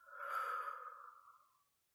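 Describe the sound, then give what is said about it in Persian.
A single deep breath taken during a guided breathing exercise, a soft airy rush that swells and then slowly tapers away over about a second and a half, faint and alone without talk. “یه بار دیگه همراه من بچه ها. دم، بازدم.”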